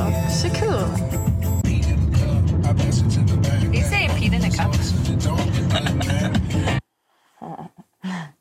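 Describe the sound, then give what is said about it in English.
Steady road and engine noise from a car driving through the city streets of Denver, continuous and loud with traffic texture, cutting off abruptly near the end before a brief burst of talk. “We drove through Denver. If you've never been there, this is what Denver's like.”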